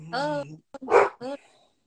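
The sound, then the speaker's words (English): A dog barks and whines in a few short, loud, tonal bursts with brief gaps between them, ending in a softer whimper. “sorry, that's the dog.”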